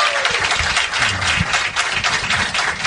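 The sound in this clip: Studio audience applauding to welcome the Lakers' owner and general manager at a team event, a steady dense wash of clapping throughout.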